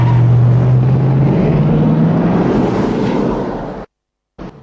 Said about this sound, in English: John drives along a dark road and turns into a side road next to a military surplus store.